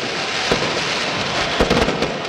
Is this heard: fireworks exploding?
yes